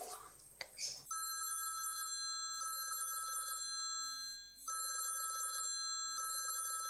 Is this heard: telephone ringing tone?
yes